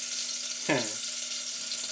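A chicken piece frying directly on a stove hob gives a steady bright sizzle that runs through the whole clip, with one brief louder burst near the start.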